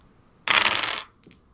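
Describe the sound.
Dice rolled onto the floor during a tabletop role-playing game give one brief rattling clatter lasting about half a second, followed by a faint, short tap.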